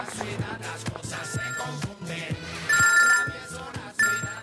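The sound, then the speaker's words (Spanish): A telephone rings with an electronic ringtone, its bright tonal trill coming in two short bursts over busy background sound. “A ver, una llamada, a ver, alguien, una llamada. El teléfono, ¿dónde está?”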